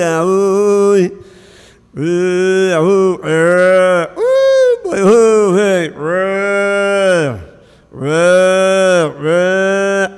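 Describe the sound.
Cattle mooing on a farm at milking time, a long series of loud, drawn-out moos following one another with short gaps, several trailing off downward in pitch.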